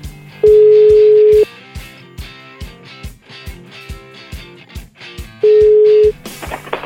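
A mobile phone call being dialed: a loud steady tone lasts about a second, followed by a run of short beeps and clicks, then a second steady tone near the end, with no talk.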